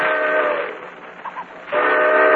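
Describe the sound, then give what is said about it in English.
Crowded passenger train jammed with people and baggage starting up, marked by a steam whistle: a loud, sustained harmonic blast, a brief lull, then the whistle sounding again. “shoved into a railroad train jammed with passengers and baggage. She's been on that train now for almost 2 hours.”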